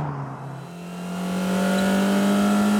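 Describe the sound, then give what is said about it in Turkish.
A turbocharged Isuzu car engine accelerating, its loud droning note climbing steadily in pitch and growing louder as the revs build. “Dinle şu sesi. Evet, güzel. Kusursuz. Turbo şu anda o Isuzu motoru için hava emiyor.”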